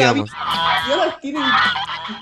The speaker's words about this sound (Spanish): trajimos unos gansos también para que le hagan compañía a las gaviotas